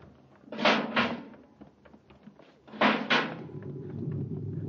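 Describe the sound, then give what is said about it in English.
A spaceship's inner hatch opening in a radio drama, heard as two clattering metallic bursts, each a quick double knock, followed by a low rumbling hum. “Full repeller ray. Quick now, open the inner hatch.”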